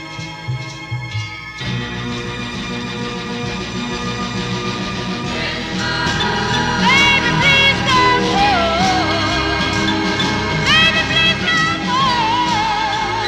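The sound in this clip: A Christmas pop song recording plays, with dense, full instrumental backing that starts quieter and then swells, and a wavering solo vocal line that enters partway through and carries over the loud, steady accompaniment.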